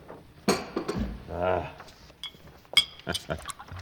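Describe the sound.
Glass clinks as a bottle meets a glass while a drink is poured, a few bright ringing taps coming under conversation between voices.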